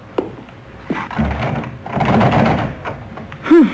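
Someone tries the handle of locked French doors to a garden, making a few sharp clicks followed by short stretches of rattling. The sounds are loud and come alone, with no voices.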